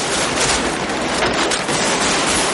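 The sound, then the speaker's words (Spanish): Gunfire in a street shootout from the 1995 film Heat, a dense, continuous barrage of overlapping shots with no clear gaps. “Neil corre entre los coches y abre fuego tras un terreno.”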